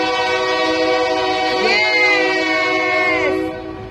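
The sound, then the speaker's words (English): A train goes by sounding its horn, a loud, sustained multi-tone chord with rich harmonics whose pitch wavers briefly in the middle before fading near the end. “Oh, yeah. We have a train going by.”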